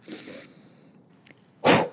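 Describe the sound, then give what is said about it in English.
A soft nasal inhale during a breathing exercise, followed after a pause by a loud, brief rush of air blown out through the mouth. No one speaks. “You're going to breathe in through your nose, and I'll make noise so you know what I'm doing, but you probably wouldn't make this much noise. I'm going to inhale”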